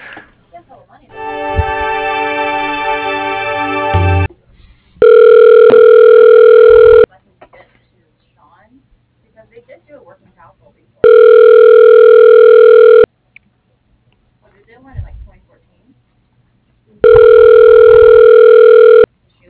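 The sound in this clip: Telephone ringback on a call being transferred to voicemail: a buzzy, multi-toned line tone first, then three loud, steady rings of about two seconds each, separated by longer gaps of quiet line noise.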